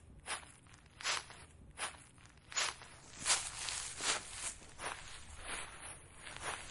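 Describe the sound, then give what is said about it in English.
Footsteps crunch and rustle through piles of dry autumn leaves on a windy day, about ten soft, crackly steps in a steady walking rhythm. “Gemma and her friends walked through piles of leaves. The leaves made a lovely sound.”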